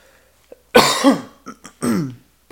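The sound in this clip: Someone with a phlegmy throat after drinking beer coughs and clears their throat: one heavy, raspy cough, a couple of short catches, then a gravelly throat-clearing rasp.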